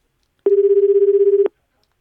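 A phone call from a withheld number ringing out: one steady, buzzing mid-pitched ringback tone lasting about a second, heard alone with silence before and after.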